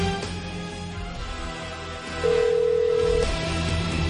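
A single ringback tone sounds on an outgoing phone call, a steady mid-pitched tone lasting about a second over low background noise.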